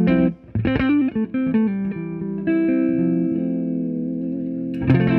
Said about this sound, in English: Give us just your clean palette and then bring the fuzz.